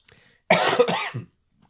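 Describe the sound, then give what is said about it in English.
A person with a cough lasting over a month lets out one harsh, rough coughing burst made of a few quick hacks, loud against near silence. “excuse me. So I've had a cough for over a month now.”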